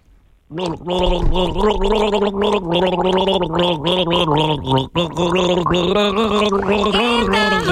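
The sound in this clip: A man gargles the melody of a pop song, his voice bubbling through water in pitched, rhythmic gurgles that start after a short silence and run continuously, dipping briefly once midway.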